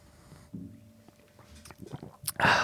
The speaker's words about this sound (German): Ich trinke noch mal einen Schluck.